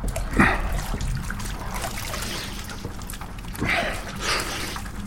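Water splashing and trickling as someone washes up, a continuous wash of dripping and sloshing with two stronger splashes standing out.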